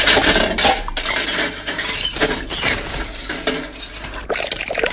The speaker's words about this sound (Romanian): Frige, e prea fierbinte. Hai, spală, spală, că iar ne prinde ziua aici.